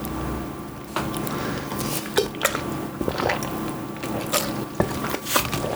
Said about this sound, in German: ich musste gerade was trinken